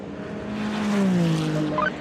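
Ferrari race car passing at high speed during a race, its engine note swelling to a peak around the middle and then sliding down in pitch as it goes by.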